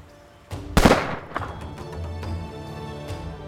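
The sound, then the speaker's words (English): Pistol fire in a reenactment of the Hamilton-Burr duel: a loud, sharp burst of gunfire that rings out and fades slowly. “Hamilton and Burr fired at each other from the side, with each man only seeing their opponent's profile.”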